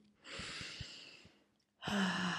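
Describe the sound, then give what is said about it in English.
Two deep breaths with no talking: the first is a long airy rush that swells and then slowly fades out, and after a short silence a second strong breath begins near the end. “Let's just take a deep breath in here. Beautiful. One more breath in.”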